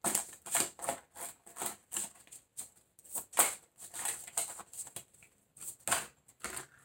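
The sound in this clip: Tarot cards are shuffled and drawn in a reading, making many quick, crisp flicks and snaps in an irregular rhythm, fairly soft and without talking.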